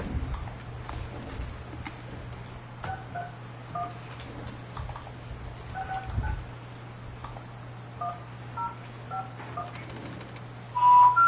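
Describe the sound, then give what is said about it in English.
Telephone keypad dialing tones, with 9 pressed first for an outside line before a long-distance number. A long series of short, clear dual-pitched beeps arrives at irregular intervals over a steady low hum, with a louder burst at the end. “I clicked 9 before dialing.”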